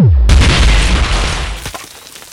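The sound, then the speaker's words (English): A boulder exploding gives a loud, deep boom: a broad, rumbling burst that fades gradually over about two seconds. “But it didn't look as if it was in much pain before it exploded, though.”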